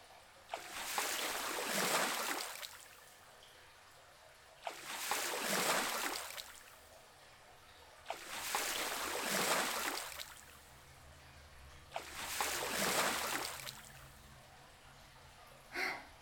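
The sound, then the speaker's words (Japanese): Water is poured over washed hair to rinse it, in four long whooshing pours. Each swells and fades over about two seconds with short quiet gaps between, and a brief fifth splash comes at the very end. “はい、大丈夫そうなら流しますね。”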